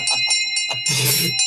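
A bell is rung repeatedly, with sustained bright ringing tones that carry through the whole clip and fuller bursts of struck sound near the end.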